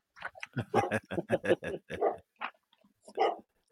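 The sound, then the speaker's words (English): A dog barks in a quick run of short, voiced yelps, then gives a couple more spaced barks after a brief pause; the calls are clear and fairly loud, with no other sounds around them. “Don't let the dog bite”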